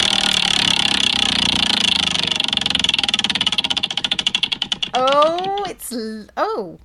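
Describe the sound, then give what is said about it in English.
A board game spinner wheel rattles in fast, even clicks that gradually spread out and slow until it stops, then voices speak. “I'm just going to spin the wheel and see what happens.”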